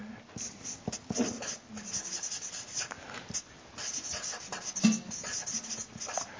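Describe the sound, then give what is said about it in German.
Writing on a board, heard as quiet, irregular scratchy strokes and rubbing that come and go in short bursts. “Ich schreibe mal hier auf.”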